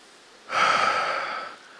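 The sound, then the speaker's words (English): A church audience takes a deep breath in together, one airy, hissing inhale about a second long that rises suddenly and then tapers off. “Everyone take a deep breath in.”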